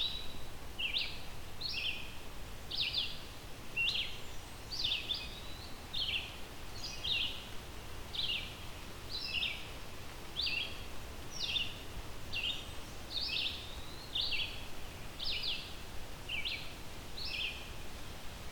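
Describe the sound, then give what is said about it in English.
A vireo sings in a forest with a canopy: many short, high whistled phrases repeated at a steady pace with brief pauses, over a constant soft hiss of background noise. “I always remember this one by thinking that it's kind of saying vireo, vireo, vireo over and over again.”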